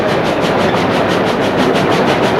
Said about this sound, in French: Le train commence à partir.